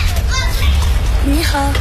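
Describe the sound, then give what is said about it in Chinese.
Children play in the sunlit lanes of an old town, their high, lively voices chattering and calling out close by, loud and animated over a low background rumble. “古城中阳光洒在巷道里，孩子们穿梭嬉戏”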